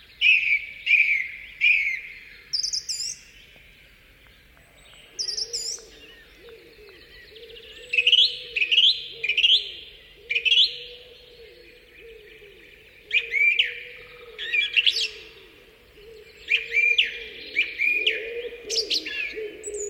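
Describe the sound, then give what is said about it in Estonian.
Spring birdsong fills an Estonian forest, with repeated bright, chirping song phrases coming in bursts and a lower, soft cooing running beneath them through the middle stretch. “Tänase oma rubriigi lõpetuseks üks kevadine helipilt Eesti metsast.”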